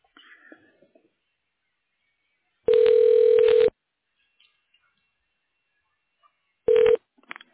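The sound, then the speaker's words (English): A telephone line ringing during a call transfer to a medical center: two bursts of a steady, buzzy ringback tone, the first about a second long and the second shorter, separated by a long quiet gap. “Otherwise, you may dial 0 for the operator. I'll transfer you now.”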